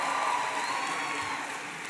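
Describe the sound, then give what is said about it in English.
An audience applauds as a congresswoman is introduced at a public event. It is a steady, fairly soft wash of many hands clapping at an even level, easing slightly toward the end. “Congresswoman Debbie Wasserman Schultz is here. Give her a big round of applause.”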